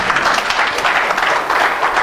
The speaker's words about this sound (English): A hand of applause will be good there too if you don't want to.